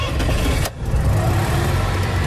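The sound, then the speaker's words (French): A 27.5-horsepower 1960s Citroën Ami 6 engine, started with its pull starter, gives a steady, loud, low rumble that drops out briefly and then runs on evenly. “Avec lui, on va remonter le temps à bord de l'Ami 6, star de la route des vacances dans les années 60. Contact et on tire sur le démarreur.”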